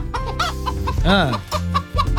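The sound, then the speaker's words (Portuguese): A hen in a radio studio clucks repeatedly in throaty bursts, breaking midway into a longer, drawn-out squawk that rises and falls before the short clucks return. “É a Gilda, a nossa galinha vidente, que vai dar o resultado do jogo Brasil e Marrocos.”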